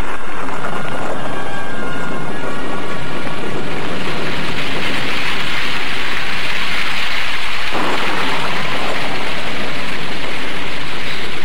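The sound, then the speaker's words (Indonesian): Heavy rain pouring down in a loud, continuous hiss that stays dense throughout, with a low thunder rumble underneath. “ketika hujan turun dengan derasnya”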